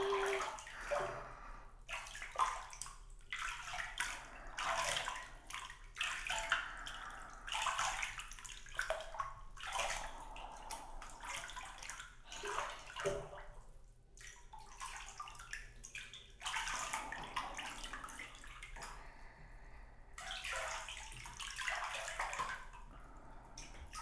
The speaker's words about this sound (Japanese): ちゃんと洗い流しましょうね。